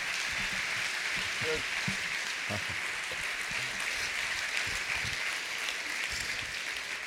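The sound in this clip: Applause from an audience welcoming a guest to the stage: a dense, steady wash of clapping that holds at an even level for the whole seven seconds.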